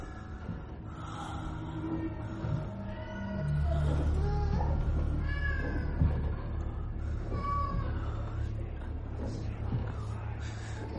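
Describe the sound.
A black cat meowing from a table where it is surrounded by knives: a few drawn-out, wavering meows over a steady low rumble that grows louder partway through.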